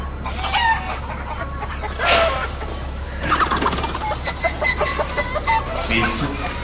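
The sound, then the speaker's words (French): Chickens, apparently sickly, cluck and squawk repeatedly in a busy, overlapping chorus over a low constant hum. “Qu'est-ce qu'ils ont, ces poulets? Oh, ils sont malades ou quoi?”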